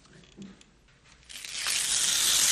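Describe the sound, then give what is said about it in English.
Paper tears as a page is ripped out of a poetry textbook. After a quiet stretch of faint handling sounds, a long, rough rip starts midway and grows louder to the end. “Now, I want you to rip out that page. Go on. Rip out the entire page.”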